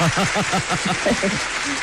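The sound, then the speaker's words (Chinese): Applause from a live audience greeting a performer about to sing a piece of traditional opera. A soft, steady hiss of clapping runs beneath a man talking throughout. “那我给您鼓掌啊！咱们先鼓掌后欣赏啊！”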